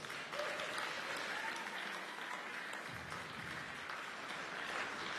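Audience applause welcoming a guest author to the stage: a dense, steady wash of clapping that holds at an even level throughout.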